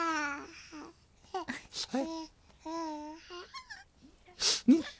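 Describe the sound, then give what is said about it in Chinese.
A baby fusses and cries in short, broken wails that shift in pitch, separated by brief pauses, with a sharper, louder burst near the end. “孩子都哭成这样了，你也不哄哄。”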